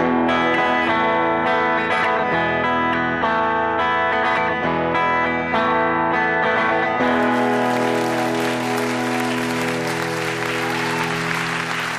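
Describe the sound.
A live band plays for an audience at BBC Maida Vale Studios with sustained, ringing chords. Partway through, the listeners break into applause that carries on loudly over the closing chord.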